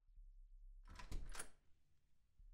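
A door is pushed shut with a soft sliding rustle and a brief muffled thunk, faint overall, followed by near quiet.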